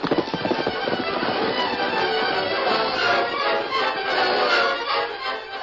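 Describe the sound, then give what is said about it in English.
Hooves of a great white stallion galloping, a dense, rapid and continuous drumming of thuds that stays loud throughout, with no voices. “Meanwhile, the Lone Ranger reined in the great white stallion at the rear of the bank”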